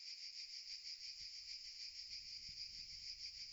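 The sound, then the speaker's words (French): Cicadas in elm trees along a dusty roadside in the midday heat, a continuous high, pulsing buzz held at an even, faint level throughout. “sur les ormeaux du bord du chemin, tout couverts de poussière blanche, des milliers de cigales se répondent d'un arbre à l'autre.”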